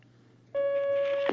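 A single steady telephone line tone sounds as a caller is connected to a phone-in line. It is a clear, mid-pitched beep held for under a second, ending in a short click, with faint hum before it.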